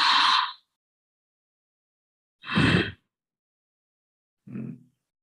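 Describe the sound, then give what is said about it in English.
Ujjayi breathing through the nose, heard as three short, raspy breaths separated by silence. The last breath is fainter and lower than the first two. “So it's called Ujjayi breath.”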